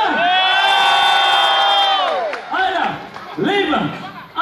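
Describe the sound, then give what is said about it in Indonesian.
A pop concert crowd cheers and whoops loudly, one long sustained burst of shouting voices followed by two shorter rounds of yelling. “Tepuk tangannya gemuruh. Bisa? Yo, tepuk tangan teriakannya mana?”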